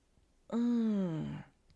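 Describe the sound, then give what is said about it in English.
A voiced yawn during a stretch: one drawn-out vocal tone about a second long that slides gradually downward in pitch and trails off, alone against quiet. “Let's start right off with a good yawn stretch.”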